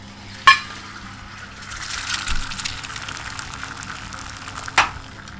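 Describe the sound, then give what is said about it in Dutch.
An egg fries in oil in a pan with a soft, airy sizzle between two sharp metallic clicks, one at the start and one near the end. “wat ik nu doe is, ik heb een pan. Je hebt een pan. Olie in. Een ei.”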